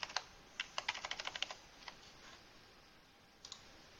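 Typing on a computer keyboard while editing a document: a quick run of many crisp key clicks, then a pause and a few scattered taps, with no talking.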